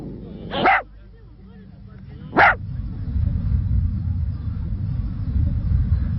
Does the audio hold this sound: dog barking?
yes